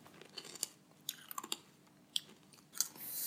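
Crunchy chewing of a snack: a faint, irregular series of crisp bites and crunches, with quiet pauses between them and no talk.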